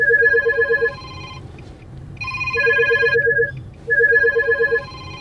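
A phone ringtone sounds for an incoming call while a ride-hail trip is starting: a bright repeating melodic tone pattern plays in three bursts separated by brief gaps, clear and fairly loud over a low background hum.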